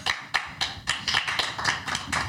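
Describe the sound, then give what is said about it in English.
Golf clap: light, deliberate hand claps land in a steady, even series, each one a crisp soft tap with little resonance, given in a mocking, unenthusiastic way. “I don't clap for cheaters. Golf clap.”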